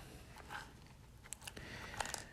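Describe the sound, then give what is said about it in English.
Peanuts being chewed: very quiet, close crunching and clicking, with a few sharper bites standing out from a soft, continuous mastication. “So what I'm doing right now is I'm eating some peanuts.”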